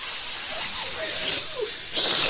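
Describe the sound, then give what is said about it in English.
Angry hissing from a group of former book club ladies directed at their ex-leader: a steady, loud, sibilant hiss that holds for the whole clip without a clear break. “They hiss at her.”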